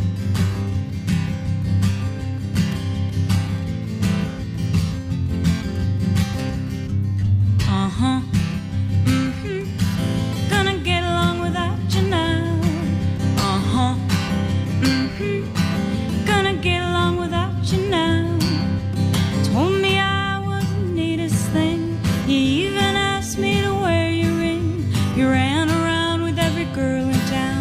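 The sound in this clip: A pop song from a duo's new album, their cover of a 1950s classic, performed live: a steady instrumental opening with a rhythmic accompaniment, then a sung vocal melody enters and continues over the band.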